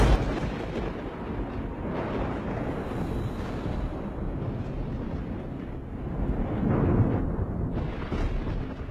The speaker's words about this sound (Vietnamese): ở bên ngoài bất thình lình một tiếng sấm vang lên cùng với tia chớp sáng lòa.